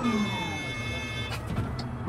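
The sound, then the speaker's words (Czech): Yellow truck arriving at a stone quarry where rock is broken up and loaded for the crusher. A steady, low engine rumble blends with broad noise throughout, with no distinct separate events. “přijíždí žlutý náklaďák”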